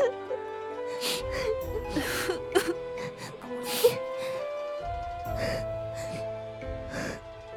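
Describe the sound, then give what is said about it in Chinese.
A young woman sobs in a period drama, with a few faint, breathy gasps and whimpering sniffles over soft sustained music. “别哭了。”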